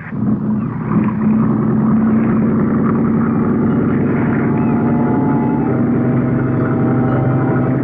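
A motorboat engine revs up at sea while the dive boat marks out an area. The loud, rough roar climbs in the first second, then holds a steady, heavy drone.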